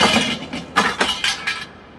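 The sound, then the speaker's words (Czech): Lamp breaking: several crisp, glassy crashes and clinks in quick succession, each bright and quickly fading, then quiet. “Lampa se ti rozbila a nastala tma.”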